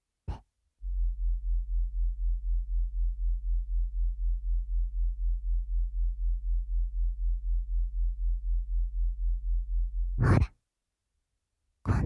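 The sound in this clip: A low-frequency tone made audible with a special technique called Emisync: a deep, steady hum pulsing evenly for about nine seconds, framed by brief breathy sounds at the start and end.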